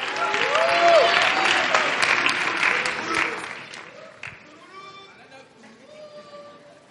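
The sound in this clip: A church audience applauds to welcome a speaker who will give a testimony. Loud, dense clapping fades away after about four seconds, and a voice speaks over the quieter tail.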